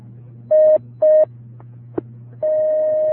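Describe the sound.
Telephone line tones as a caller is put through on a call-in line: two short steady beeps, a brief click, then a long sustained tone, all over a low continuous hum.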